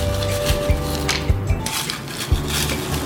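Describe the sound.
A spoon clinks against a pot while a mild herbal drink is cooked and water is added, giving several sharp metallic taps at uneven intervals over a low, steady hum.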